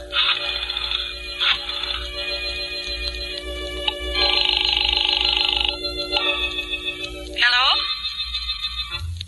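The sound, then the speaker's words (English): A telephone rings on the line after a number is dialed. A few trilling ring bursts play over a steady tonal backing. “I dialed her number.”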